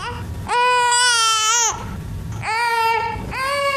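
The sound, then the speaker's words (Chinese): An infant cries in loud, high-pitched wails. Three bursts are separated by short breathy pauses, with no other voices. “别哭，家里来了贵客，娘不能喂你，你忍一忍啊。”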